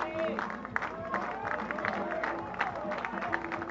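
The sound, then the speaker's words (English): A baseball crowd at a 2013 college regional game between OU and Virginia Tech cheers and claps to urge on the pitcher, a steady hubbub of voices and shouts with scattered claps. “And now the crowd will try to encourage Eddie Campbell to finish off the Sooners here in inning number 5.”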